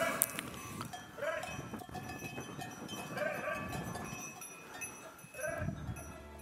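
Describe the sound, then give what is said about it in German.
A livestock herd being led by its shepherd: a few bleating calls rise over continuous rustling, shuffling and clattering from the animals, with no clear talk. “Das ist der Hirte und er leitet seine Herde. Wie? Mit seiner Stimme.”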